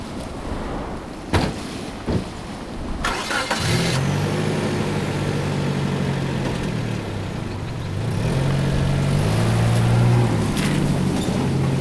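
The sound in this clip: A car engine starts up after a few sharp knocks, then settles into a low, steady rumble under constant wind-like noise. The engine's tone steps up higher toward the end.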